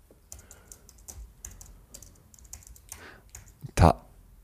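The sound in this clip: Typing on a computer keyboard while entering a web search: a run of many quick, light keystroke clicks at an uneven pace, ending with one much louder thump near the finish.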